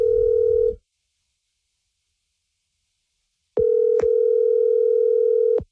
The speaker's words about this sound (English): And when you ring it, this is what you hear.